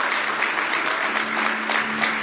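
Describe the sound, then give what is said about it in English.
An audience claps hands in praise during a church service, producing a steady, dense round of applause that keeps an even level throughout. “Praise the Lord. Give the Lord another hand clap of praise.”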